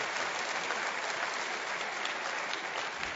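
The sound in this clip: Audience applause greets guest speaker Franklin Graham: a steady, even wash of many hands clapping at constant loudness, with no break throughout.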